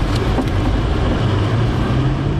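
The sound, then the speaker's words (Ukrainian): Steady, loud engine and road roar of an armored car driving at high speed into a city in a war zone, a continuous broad rumble with no breaks and no voices. “В місто заїжджаємо в броньованому автомобілі на великій швидкості, аби не поцілив ворожий дрон.”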